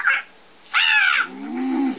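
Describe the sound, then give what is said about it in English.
Crows cawing in a bedroom: a few harsh, raspy caws of varying pitch, one short, one higher and drawn out, then a lower, longer call, loud and with no talk. “I'm very uncomfortable having a gang of crows in our bedroom.”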